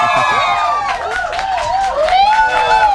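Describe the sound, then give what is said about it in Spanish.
A studio audience at a live show cheers, with high excited whoops and yells rising and falling over scattered clapping, loud throughout. “Que se escuche que hay gente en el foro, por favor.”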